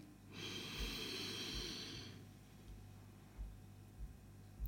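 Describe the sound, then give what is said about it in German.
A deep, breathy inhale drawn in through the nose rushes for under two seconds, followed by quieter background hiss and a few faint soft thumps. “Bitte mal tief durch die Nase ein”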